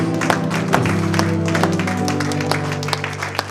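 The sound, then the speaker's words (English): A church audience claps in praise, a dense, steady patter of hand claps running throughout, laid over sustained, held musical tones. “Give the Lord a hand clap of”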